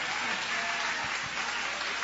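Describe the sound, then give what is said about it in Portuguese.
Applause from an audience at a morning church service: a dense, steady wash of many hands clapping that holds at an even level for the whole clip, with no voices over it. “levanta a mão então e dá uma salva de palmas para Ele.”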